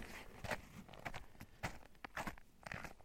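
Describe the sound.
Faint footsteps of a person walking along a straight path, a series of soft, irregularly spaced scuffing steps repeating throughout.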